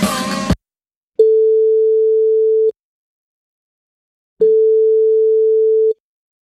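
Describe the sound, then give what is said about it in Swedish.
Telephone ringback tone heard while calling someone: after a brief snatch of speech, two long, steady, mid-pitched tones sound alone, separated by a silent pause. “vi ska alldeles, alldeles nu ringa upp eh, Lollo Carter”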